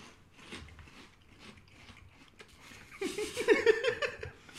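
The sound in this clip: Chewing and eating a soy-sauce-flavoured food, with many irregular, clicky, moist mouth sounds that grow louder and busier toward the end.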